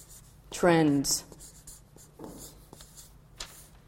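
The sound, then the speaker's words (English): Handwriting by pen or pencil, something being written down, gives a soft, irregular scratching of strokes, faint and continuous after a brief spoken word. “I'll just, you know, rather than tease you with it, I'll just write it down because it's humongous.”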